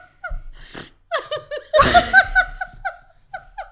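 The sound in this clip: Giggly, snorting laughter from a drunk woman: a run of short, high voiced bursts with a broader, noisy burst near the middle, fading into a few lighter chuckles.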